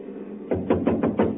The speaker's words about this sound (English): First of all, we'll try rapping on the door.